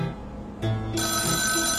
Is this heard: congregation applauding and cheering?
no